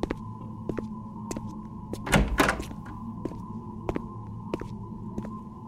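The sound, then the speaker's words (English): A drawer pulled out of a shop till makes a brief scraping rush mid-clip, set against steady, regularly spaced ticking clicks and a low hum throughout. “you see her pull out a drawer, and there is a punch pad.”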